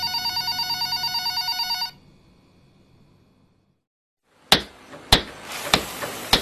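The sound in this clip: A telephone bell rings with a rapid, trilling pulse for about two seconds and then stops. After a quiet gap, a few sharp clacks and knocks follow.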